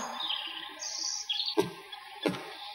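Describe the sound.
A bird calls with thin, high chirps and a bright whistled phrase, joined by two short, sharp taps later on, all fairly faint.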